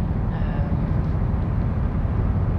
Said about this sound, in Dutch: Ik ben nu naar huis aan het rijden.